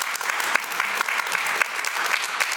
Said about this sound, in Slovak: Ja nepočujem, lebo ten fanklub pána Rašieho je príliš intenzívny. Poprosím vás, tlieskajte pánovi Matovičovi.